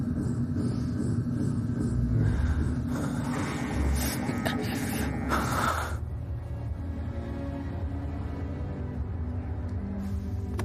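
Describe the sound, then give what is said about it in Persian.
A hospital scanning machine runs with a loud, steady rumbling hum and harsh buzzing bursts. After about six seconds these settle into a lower continuous drone. “میخوایم دستگاه رو روشن کنیم. الان داریم اسکن میکنیم، ممکنه یه سر و صداهایی بیاد، ولی آروم باش.”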